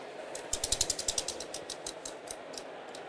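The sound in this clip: A prize wheel spun at a live summit stage show gives off rapid ratcheting clicks that start dense and then space out as the wheel slows, fading to a few last ticks.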